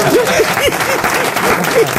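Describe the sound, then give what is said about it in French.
Audience applause, a brief dense patter of many hands clapping at an even level. “Vous applaudissez pas?”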